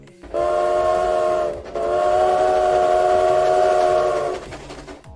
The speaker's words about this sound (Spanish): Vámonos de una vez con el tren. Vámonos a subir al tren. Ahí se viene.